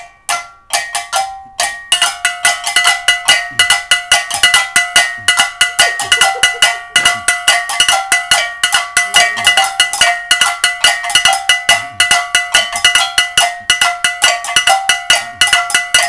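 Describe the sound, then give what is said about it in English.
A simple rhythm struck on a bell during a music lesson on creating rhythms: many bright, ringing metallic hits in a steady repeating pattern, loud and alone, with a brief pause early on. “The same things that you are playing on the bell, you can still play on the drums.”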